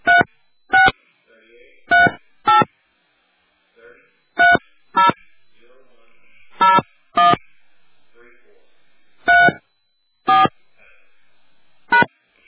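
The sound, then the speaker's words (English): Telephone keypad tones as a personal ID number is entered on an automated phone line: a series of short, sharp, loud beeps in an uneven rhythm with pauses, plus a few much fainter blips between them. “Please enter your personal ID number, followed by the pound sign.”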